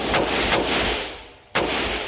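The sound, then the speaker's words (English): A regular semi-automatic AR-15 rifle firing rapid rounds: a few loud, sharp shots in quick succession, each with a long rumbling tail. A short pause comes before the last one. “keep firing multiple rounds as close to an automatic weapon as you can get. That's a regular semi-automatic AR-15.”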